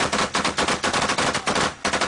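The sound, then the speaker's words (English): Rapid automatic gunfire rattles loudly and without pause during a Taliban attack on a platoon returning from patrol. Many shots in dense, even bursts fill the whole stretch, with no voices. “The platoon found themselves under attack from the Taliban just after returning from a patrol.”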